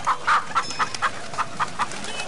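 Chickens cluck in a quick, steady run of short, mid-pitched clucks, fairly loud and heard alone over a soft background hiss.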